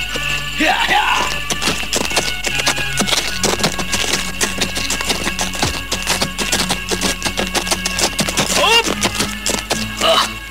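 Clip-clop of hooves as two horsemen ride closer, a dense, steady run of hoofbeats that stays loud over a busy, noisy background.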